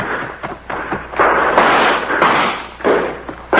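Gunshots in a radio drama shootout, where a girl is shot: a rapid series of loud, sharp blasts overlap and echo into one another, with no voices between them.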